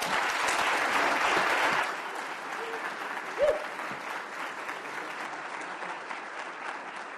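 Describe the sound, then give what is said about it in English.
An audience applauds to welcome a guest lecturer. Loud, dense clapping for the first couple of seconds gives way to thinner, quieter applause that carries on steadily to the end. “So would you join me in a warm Jefferson welcome for Dr. Glenn Steele?”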